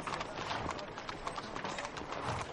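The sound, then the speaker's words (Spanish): Faint clip-clop of hooves from a horse-drawn carriage setting off, a quick run of many soft hoof strikes over a hushed background. “El carruaje se pone en marcha.”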